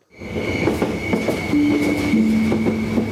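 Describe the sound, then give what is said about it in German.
The Bernina Express train of the Rhaetian Railway runs through Graubünden with a loud, steady rumble and rhythmic clatter, a sustained high whine, and a squealing tone in the second half. “Allegra und herzlich willkommen im Bernina Express. 50 Jahre Bernina Express. Das Jubiläum feiert die Rätische Bahn das Jahr. Der Zug mit den grossen Panoramafenster lässt das Herz von Zugbegeisterten höher schlagen.”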